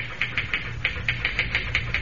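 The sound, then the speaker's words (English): Typewriter keys pounded in a hotel room as a cable dispatch is typed: a quick, steady run of sharp, bright clacks at an even typing rhythm, with no voices. “Boy, you sure can pound that machine. Think all of it'll be able to type like that?”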